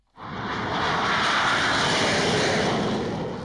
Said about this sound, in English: That was the sound of an F-16 making a pass over the runway at Tucson's Davis-Monthan Air Force Base.